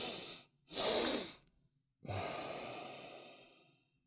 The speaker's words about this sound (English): you breathe through the nose with a double inhale like this. So a double inhale.